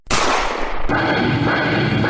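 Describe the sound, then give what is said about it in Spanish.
A loud, sharp gunshot bursts out and is followed by a long, rough, sustained tail of noise, with a second harsh hit partway through. “Y en el momento oportuno, disparó.”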